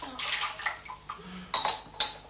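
Water splashing in a child's small pool, a few soft, splashy bursts of moderate loudness separated by brief pauses.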